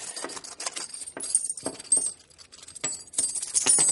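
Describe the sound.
Gold coins emptied from a belt onto a table, giving a quick run of many small, bright metallic clinks and jingles that continue steadily throughout at a fairly low level.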